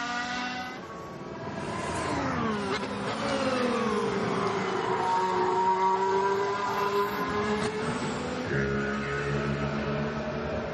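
A Formula 1 car driven by Valtteri Bottas on green-marked intermediate tyres laps the circuit, its high-pitched engine whining loudly, with a downward pitch sweep early on and a shift in tone near the end.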